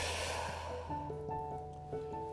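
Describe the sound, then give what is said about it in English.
A hard exhale, like blowing out a candle, taken during a guided relaxation breathing exercise: one breathy rush of air, followed by soft, sustained musical tones. “take a big, deep breath in. Hold it a second. Blow out a candle.”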